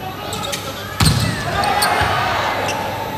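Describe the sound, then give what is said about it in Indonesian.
A volleyball served hard during a match, one sharp struck thud about a second in, rising above steady crowd noise that continues afterward. “Dan Boy sekarang kembali kemudian melakukan serve ya. Kencang sekali.”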